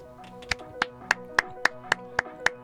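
Small applause after a poem: eight slow, evenly spaced hand claps, sparse and sharp over a quiet background.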